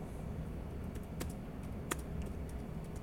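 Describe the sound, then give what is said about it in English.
Slow typing on a computer keyboard: scattered light keystroke clicks, a few standing out more sharply, over a steady quiet background. “I type slow.”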